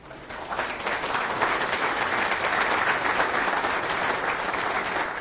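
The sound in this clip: Sustained applause from a conference audience welcoming a speaker before a talk. It rises within the first half second, then holds as a steady, dense wash of clapping with no voices.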